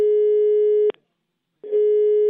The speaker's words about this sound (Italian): abbiamo provato a fare una telefonata a San José, California, a un ospite davvero particolare. Sentite com'è andata.